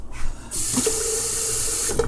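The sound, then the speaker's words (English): Tap water running from a sink faucet while filling water for rooibos tea: a steady hissing rush begins after a brief quiet start and continues unbroken to the end. “Actually, I should not be using tap water because the tap water has tons of shite in it.”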